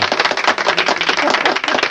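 Audience applause for a winner of a prize raffle with beer as a prize: many quick, rhythmic claps from several people, steady and fairly loud over two seconds.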